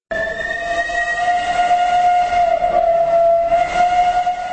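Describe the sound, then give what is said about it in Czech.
A train at the first platform of Prague's main railway station on a crowded morning, giving a loud, sustained, high-pitched whistling tone over rumbling noise that continues throughout. “Na prvním nástupišti pražského hlavního nádraží byla ráno 1. září stejná tlačenice jako před 70 lety.”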